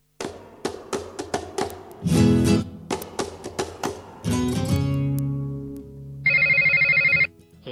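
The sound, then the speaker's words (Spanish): A telephone rings with one short, bright electronic trill near the end, after a run of tapping knocks and low tonal notes. No one talks. “¿Te está sonando el teléfono y no te diste cuenta?”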